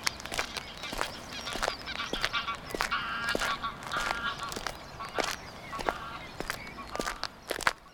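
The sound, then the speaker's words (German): Greylag geese honk in a meadow, with a few harmonic calls rising above a steady run of crunching footsteps that continues throughout. “Da rechts hocken wieder die Graugänse in der Wiese und schauen zu uns herüber.”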